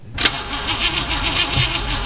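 A car engine on a car that has run out of oil cranks briefly, then catches and settles into a steady, throbbing idle.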